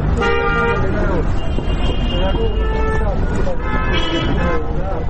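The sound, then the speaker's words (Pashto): Busy road traffic of passing cars and rickshaws on a street outside a shop makes a dense, steady roar, with repeated horn toots and several sustained honks on top and voices mixed in. “دی پر سړک تیریدونکو موټرو، رکشو او خلکو ته ګوري.”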